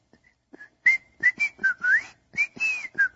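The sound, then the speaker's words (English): Human whistling, performed to illustrate a whistling sound in a story read aloud: a run of many short, bright whistled notes that bend up and down in pitch, fairly loud and alone, with no talk. “before the sun could reply, she heard a whistling sound like this.”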